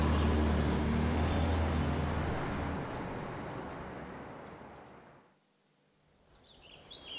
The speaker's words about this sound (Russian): Бандиты вместе с Геной садятся в машину и уезжают.